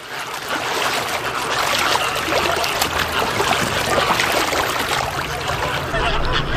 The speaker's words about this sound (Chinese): 一时间狂风呼啸，波涛汹涌。风暴袭来，涌上沙洲的海水正威胁着鸟巢的安全。